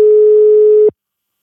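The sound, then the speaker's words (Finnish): A telephone line tone sounds as a call is placed. A single loud, steady, mid-pitched tone holds for just under a second, then cuts off abruptly into silence. “Mä soitan.”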